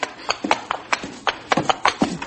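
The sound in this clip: Horse hooves clatter as a colt is whipped and driven about: many quick, uneven hoofbeats, fairly faint and irregular, with no clear whinny.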